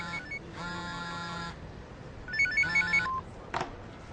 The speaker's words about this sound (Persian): جواب بده. اصلا نه شاید دختره است. زنگ زده اصرار کنه بری میگیری.